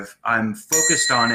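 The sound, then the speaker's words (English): A bell rung during a mindfulness exercise, with attention held on it as it fades. Its bright, high, sustained ring carries under a person speaking briefly. “I ring the bell. I stay with the bell as long as I can.”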